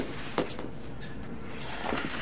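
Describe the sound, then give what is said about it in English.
A door being locked gives a couple of brief, muffled clicks and rattles separated by a quiet stretch. “Lock the door.”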